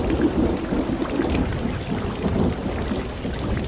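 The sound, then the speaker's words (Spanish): Rain falling with thunder, a dense, continuous hiss and patter of drops over a low rumbling underneath, steady in loudness throughout, with no talk. “de esta lluvia que insiste en persistir”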